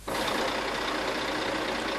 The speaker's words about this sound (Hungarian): 7 kilométeres a kamionsor Záhonynál, egy nap alatt lehet csak átjutni a határon.